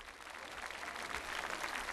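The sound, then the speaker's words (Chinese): Applause for actress Xin Zhilei at the close of a tribute to her, heard as a brief, fairly soft wash of clapping. The clapping stays even for about two seconds, with no speech. “请大家继续支持辛芷蕾，他值得所有的掌声，谢谢大家。”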